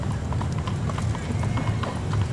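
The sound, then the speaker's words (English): Horse hooves clip-clopping at a slow, steady pace while pulling a carriage, an even rhythmic patter of hoofbeats running under people talking. “This carriage is pretty slow.”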